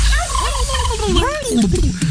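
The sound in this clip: A turkey gobbling: a loud, rapid, burbling rattle of warbling notes that rises and falls, heard on its own.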